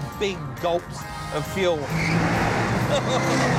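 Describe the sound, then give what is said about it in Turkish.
Engine of a fast 1960s car with three carburetors, the extra two opening as the throttle is pressed harder, roars loud and steady through the second half after a voice speaks over a quieter engine at the start. “Şu anda bir tanesini kullanıyorum ama gaza daha da bastığımda diğer 2 karbüratör de açılıyor ve bu motora çok daha fazla benzin gitmesini sağlıyor.”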